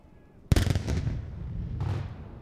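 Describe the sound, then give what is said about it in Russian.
A single heavy cannon blast from a fortress salute battery, fired as the signal opening a Russian Navy Day celebration. It hits with a sharp, loud boom and a long rolling rumble, then a second, fainter burst follows. “Залп салютной батареи Петропавловской крепости – дает сигнал к началу празднования Дня военно-морского флота России.”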